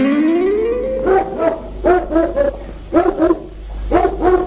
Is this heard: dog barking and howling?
yes